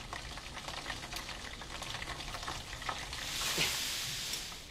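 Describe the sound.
Karaage made from rabbit horn meat deep-fries in hot oil, giving a dense, steady crackle and sizzle full of small pops that swells a little louder in the second half.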